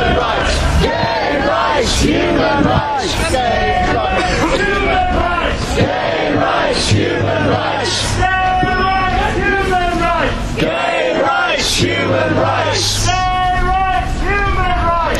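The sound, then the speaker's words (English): A demonstration crowd at an LGBT and human rights event outside the Russian embassy in London shouts and chants loudly. Many voices rise in repeated bursts of rhythmic slogans and yells. “What you're hearing is an excerpt from the demonstration at the recent event, the LGBT, or the human rights event at the Russian embassy in London.”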